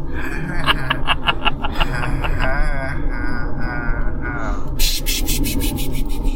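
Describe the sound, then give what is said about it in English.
Fingers rubbing on fabric, with soft scratchy friction under talking for most of the stretch, then quick, rhythmic rubbing strokes coming through more clearly near the end. “Oh, here's some fabric I can rub my fingers on.”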